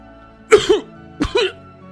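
Two harsh, wet coughs from a person coughing up blood. Each is a short rough burst with a brief trailing rasp, and a pause of about half a second separates them.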